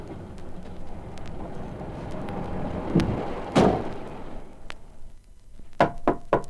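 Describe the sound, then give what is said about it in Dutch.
Knocking on the door of a woodcutter's hut: a couple of heavy thuds midway, then three sharp raps close together near the end, over a rumbling, noisy background. “werd er geklopt aan de deur van het hutje van de houthakker.”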